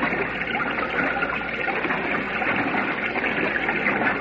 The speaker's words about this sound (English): Struggling, trying to swim. It's impossible in this torrent.